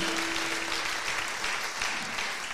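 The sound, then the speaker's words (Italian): Audience applause follows a song at a live music audition event on stage: dense, steady clapping holds at an even, fairly loud level throughout, with no voices over it. “Grazie, un meritato applauso a lui.”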